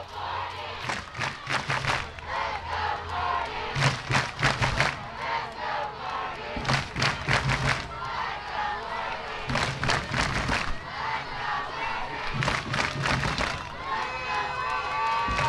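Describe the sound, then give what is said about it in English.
A few hundred baseball fans under an awning in Rockwall cheer on their team mid-game, their shouts and yells rising and falling in repeated loud surges. “What you hear is the couple hundred people under the awning here in Rockwall cheering on your Jackrabbits.”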